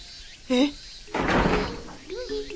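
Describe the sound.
A door being shut: one broad, rustling thud lasting under a second, set between brief bits of voices.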